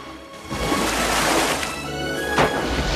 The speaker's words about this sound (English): a whale brings its tail crashing down dramatically